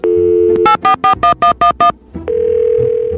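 A steady telephone dial tone breaks into a quick run of touch-tone keypad beeps, then a second steady tone sounds as a caller rings in to a radio advice phone-in show.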